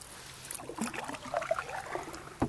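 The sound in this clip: A boat is paddled back to the shore of a reservoir, with faint, irregular splashes and trickles of water from the paddle strokes and no voices.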